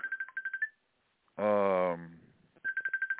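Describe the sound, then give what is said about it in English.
A phone rings with an incoming call from a phone made in Asia: two rapid bursts of high electronic beeps separated by a gap that holds a brief, louder tonal sound. “and now somebody's calling me from Asia.”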